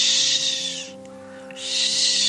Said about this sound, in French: Et qui effraie, comme son nom l'indique, par son chuintement. Le cri de la chouette effraie, c'est un